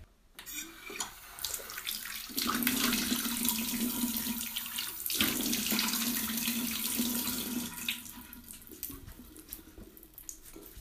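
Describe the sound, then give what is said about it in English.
Tap water runs into a sink while someone washes their face, a steady rushing hiss with splashes that starts softly, breaks off briefly midway, then resumes before fading near the end. “So, give me a second so that I can wash my face.”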